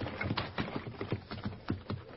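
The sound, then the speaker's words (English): Hooves of a horse team pulling a wagon down a road: a faint, rhythmic clip-clop of many steady hoof strikes, heard alone without voices. “Hey, wait. Listen. That's a team and wagon. And it's heading right down the road where the horses are hidden.”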